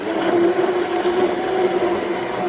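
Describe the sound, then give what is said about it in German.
A large electric stick blender whirs as it mixes a batch of homemade hot cranberry sauce, giving a steady, continuous motor hum with a faint whine that holds at one pitch throughout. “Mit einem großen elektrischen Rührstab arbeitet der 53-Jährige mit Vollbart und lachenden Augen bei unserem Treffen an seiner selbstgemachten Hot Cranberry Cracker Sauce.”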